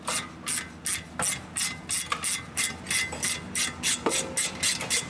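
A ratchet clicks as the brake caliper bolts on a car are undone. Many rapid, rasping bursts repeat in a steady back-and-forth rhythm, fairly loud and continuous, with no voices.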